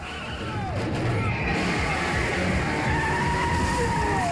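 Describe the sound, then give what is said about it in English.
A car drives through a crowd in a film, its engine a sustained, loud roar with a whining tone running over it. “Boston Eskew drives through the crowd, knocking people out of the way.”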